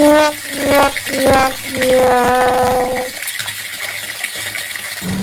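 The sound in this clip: Water streams from an open tap in a steady splashing flow, with tonal voiced sounds over it for the first three seconds.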